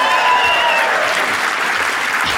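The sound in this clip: Loud audience applause welcoming a comedian onto a show, a thick, sustained roar of clapping that holds steady and eases only slightly toward the end.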